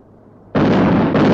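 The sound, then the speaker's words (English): Chinese artillery guns fire on HMS Consort, shells bursting near a marshy area. A sudden, heavy blast breaks a quiet lull and becomes a sustained, loud roar, renewed by a second burst moments later. “Chinese artillery guns open fire on the consort. Several shells explode close to a marshy area”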